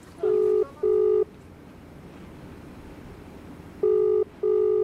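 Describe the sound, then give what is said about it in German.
A telephone ringback tone plays as a call is placed to Delhi. Two pairs of steady buzzing tones are separated by a pause of about two and a half seconds, over a faint hiss. “Zurück in Delhi, ein Anruf bei Avikal Somvashi.”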